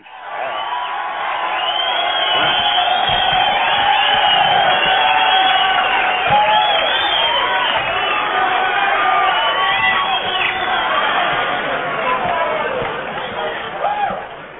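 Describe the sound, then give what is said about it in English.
Audience applause and cheering: a dense, steady roar of cheers, whoops and crowd voices that holds at a high level throughout and eases slightly at the very end. “Go ahead and give him applause for that.”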